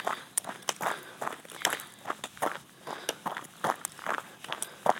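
Footsteps walking fast and running: many quick, irregular steps with short, sharp impacts at an uneven pace, fairly faint and heard alone without talk.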